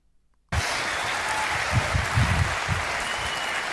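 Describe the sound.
Audience applause for a woman starts abruptly after a brief silence and continues as a steady, dense clatter of many clapping hands.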